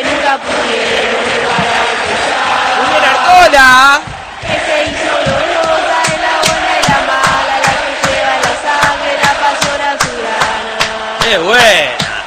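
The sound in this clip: San Lorenzo football supporters chanting a club song, a loud, continuous mass of singing voices carried on a steady rhythmic pulse that never lets up.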